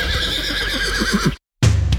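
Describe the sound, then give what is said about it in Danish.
A horse neighs in a harness racing advert, a loud shrill whinny with a wavering, trembling pitch that holds for over a second before cutting off into a short silence. “oplev farten fra hestene, når de suser over feltet.”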